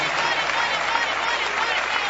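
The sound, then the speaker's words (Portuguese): A church audience claps in praise, a dense, steady wash of many hands lasting about two seconds at moderate loudness, with no distinct voices. “Pode louvar Deus com palmas, igreja. Palmas para Jesus, palmas para Jesus.”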